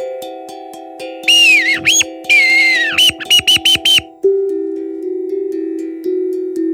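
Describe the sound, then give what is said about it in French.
A bird sings in bright whistled chirps and trills that rise and fall, then a burst of short quick notes, over a steady low sustained tone that continues after the song stops. “il lève la tête. Un oiseau a chanté.”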